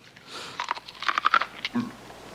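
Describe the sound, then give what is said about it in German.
Someone crunches on raw field corn, giving a few quiet, crisp, brittle crunches in a short uneven cluster. “Das Zeug ist ja roh. Ich weiß, ist das nicht wundervoll? So schön knusprig. Natürlich ist es knusprig, es ist ja roh.”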